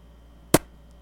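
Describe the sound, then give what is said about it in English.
A single short, dull pop stands in for the weak firing of a yogurt cannon: one brief, soft burst with almost no tail, alone against faint background hiss. “Can you imagine how much of a disappointment I would be when someone's waiting for my yogurt cannon to fire and only thing that comes out is... It sounds like this.”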